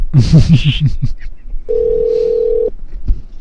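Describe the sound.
A telephone call is placed to a hotel front desk, and a single steady tone of about a second sounds on the line after brief voice-like sounds.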